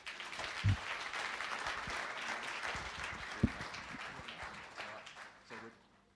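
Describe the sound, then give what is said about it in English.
A church audience applauds to welcome guests during a service, with soft, steady massed clapping and a few sharper claps standing out, thinning and fading away toward the end. “But let's give them a warm welcome.”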